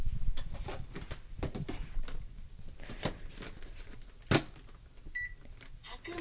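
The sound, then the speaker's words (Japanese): A rice cooker button is pressed to start normal cooking, with scattered clicks and handling knocks, then a couple of short, faint electronic beeps near the end. “普通炊きの炊飯ボタンを押しました”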